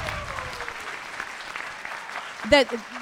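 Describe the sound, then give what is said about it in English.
Audience applause following a sung number, steady, moderate clapping throughout, with a voice briefly cutting in over it near the end. “Yeah, you're going to have to let us applaud.”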